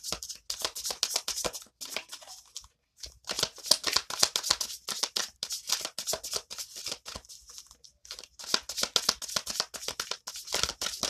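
Tarot cards are shuffled and spill out of the deck in many rapid, crisp riffling and slapping bursts that come in irregular clusters with brief pauses. Fairly quiet.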